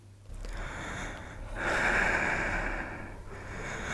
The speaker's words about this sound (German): Und jetzt mach bitte den Oberkörper frei und atme tief ein und aus.